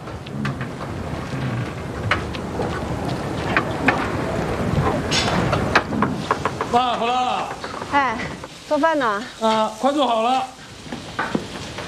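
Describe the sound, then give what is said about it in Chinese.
Food sizzling in a pan during home cooking: a dense crackling hiss fills the first six seconds, then carries on more faintly under people talking. “哎， 做饭呢？啊，快做好了。”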